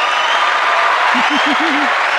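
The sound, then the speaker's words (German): Applause as a dense, even wash of clapping that runs loud through the whole moment, with a low voice briefly speaking over it partway through. “Applaus, Applaus.”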